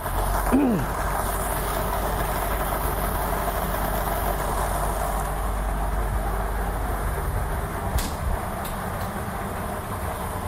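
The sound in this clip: A lottery ball drum machine starts spinning during a prize draw, giving a steady, dense whirring rumble that holds at an even level for the whole stretch, with no clear separate impacts standing out.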